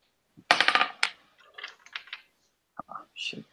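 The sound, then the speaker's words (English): Dice roll across a table during a tabletop role-playing game: a rapid clatter of many sharp clicks, then scattered lighter taps and rattles as they settle, with no voices. “So let's roll the dice.”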